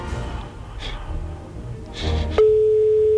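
Telephone line sound after a number is dialled: a few faint clicks, then a steady, loud, unbroken single-pitch tone that starts suddenly and holds to the end.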